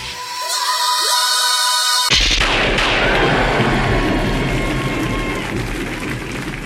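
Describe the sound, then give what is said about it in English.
A heavy booming crash representing a Tyrannosaurus rex dropped from the sky onto the ground: a tonal build-up breaks into a sudden loud, broad impact about two seconds in, followed by a sustained, rumbling wash of noise. “doom is the sound made by a Tyrannosaurus Rex dropped from the sky, landing on the ground in front of the Honey Badger”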